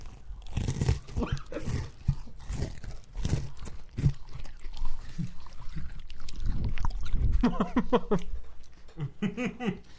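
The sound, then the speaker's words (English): A Nabisco Oreo cookie package is opened and the cookies are crunched, giving many crisp crackles and clicks alongside rustling, with voices and laughter toward the end. “Oreo break. Snack. Open it quietly. Brought to you by Nabisco. All right, you can't eat these quietly either. No, right, you everyone can't. Enjoy your 2 minutes of ASMR.”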